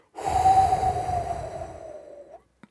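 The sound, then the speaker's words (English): A single long, deep breath lasting about two seconds. It is airy and fairly loud, with a faint steady whistling tone running through it that fades out at the end. “Oh, and then we get to take a breath.”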